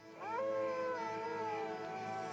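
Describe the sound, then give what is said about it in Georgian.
Coyotes howling in the desert at night: a sustained, wavering howl that rises quickly at the start, then holds and slowly drifts lower in pitch, steady and unbroken with no talk. “მათ კოიოტები უერთდებიან.”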